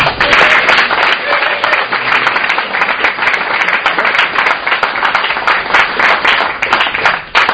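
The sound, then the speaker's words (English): Audience applause welcoming a speaker to the stage at a recovery meeting, steady dense clapping from a crowd that stays loud and even throughout, with no voices over it. “Would you join me in welcoming Billy.”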